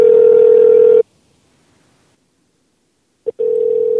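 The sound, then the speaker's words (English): Telephone line tones during a call: a loud, steady single-pitch tone drones for about a second and cuts off, then silence, a brief blip, and the same steady tone starts again. “And dial back. Call back. See if we can get an answer.”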